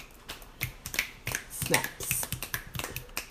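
Many fingers snap in quick, irregular, overlapping bursts, a soft but busy patter of sharp clicks throughout.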